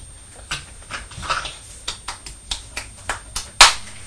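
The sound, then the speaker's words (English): A young boy claps his hands, giving himself a round of applause: many light, sharp claps at an uneven pace, each a crisp snap on its own, the last one the loudest. “Are you giving yourself a round of applause? You've been a clever boy.”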